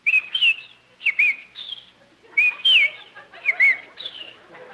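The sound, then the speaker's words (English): A bird on a lawn chirps in several short bursts of bright, high warbling whistles separated by brief gaps, fairly loud and with no talk. “look at that beautiful bird on your lawn. Ah, oh, look, he's hopping over to us.”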